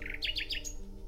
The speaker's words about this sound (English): I heard a nightingale singing in the woods far away.